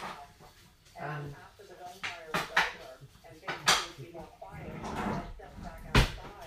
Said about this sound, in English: I'm just getting the ingredients I need from the fridge, which is butter, milk, eggs. I'm going to get a wooden spoon.